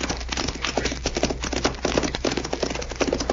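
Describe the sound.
Horse hoofbeats as riders set off down a trail, a fast, steady clip-clop rhythm of many hoof strikes that continues evenly and alone throughout.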